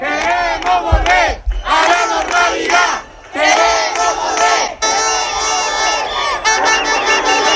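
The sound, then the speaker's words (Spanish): Crowd of protesters shouting and chanting in the streets of Ceuta at night: loud, dense bursts of many raised voices, rising and dipping in waves with brief lulls, sustained through the whole clip. “Es el sonido de las protestas de esta noche. Los ceutíes han reclamado en las calles la vida que tenían antes”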